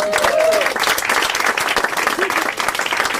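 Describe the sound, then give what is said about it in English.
Audience applause for the readers at a book reading: dense, steady clapping that holds loud throughout, with some crowd voices mixed in. “let's have a big round of applause for all our readers.”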